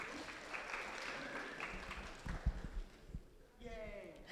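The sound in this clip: Applause from an orientation audience welcoming the Teacher of the Year, a professor, as first speaker: steady, dense clapping that runs the whole length, with a few louder claps near the middle and a brief dip before it swells again.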